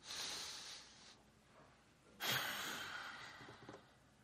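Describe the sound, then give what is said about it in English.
A quiet deep breath, with a soft airy inhale, a short pause, then a fuller, slightly louder exhale that fades gradually, with no talk. “I'm ready to take a deep breath.”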